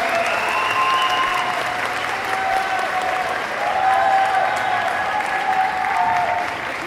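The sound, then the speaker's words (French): Applause from an audience thanks three musicians who played at the TGS 2016 inauguration ceremony. Steady, dense clapping holds at an even level for the whole stretch, with no break or voices. “Je remercie effectivement nos 3 musiciens qui étaient présents sur la cérémonie d'inauguration. Vous pouvez les applaudir.”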